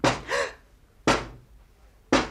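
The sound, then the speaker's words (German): Knocking on a window in a snowed-in house: three sharp, evenly spaced raps about a second apart, each followed by a brief decaying ring. “Es hat geklopft, am Fenster.”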